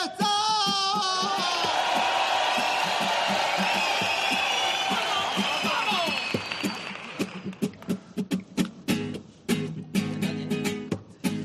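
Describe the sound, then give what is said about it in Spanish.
An audience cheers for a contestant in a street rap battle, with sustained yelling and whooping that gives way to choppy bursts of shouts and claps toward the end. “¡Que aplaudan los que crean que el ganador debe ser el Anuel del Puerto 3!”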